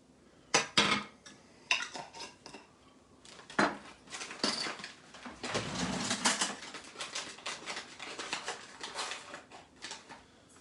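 A utensil clinks and scrapes against a bowl as water, quick-rise yeast and sugar are mixed. Irregular sharp knocks come first, then a denser run of rapid scraping strokes, fairly faint and without talk.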